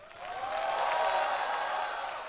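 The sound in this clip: Audience applause for singer Hu Yanbin after he performs a new song, a dense, steady wash of many hands clapping that swells within the first half second and holds level before easing slightly at the end.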